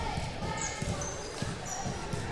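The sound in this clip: A basketball dribbled on the court during a game between ABS and Waterloo, a steady rhythm of low thumps under a commentator's voice and crowd noise.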